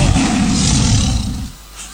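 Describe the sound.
A tiger roars in one loud, rough, sustained blast that holds steady before dropping away to quiet. No voices are heard.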